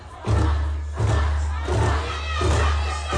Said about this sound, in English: A joyful atmosphere welcomed the Bafana Bafana squad, and an enthusiastic crowd dressed in predominantly green and gold sang,